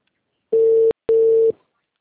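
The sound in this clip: Telephone ringback tone as a call connects: two loud, steady, mid-pitched beeps in quick succession with a short gap between them, heard alone.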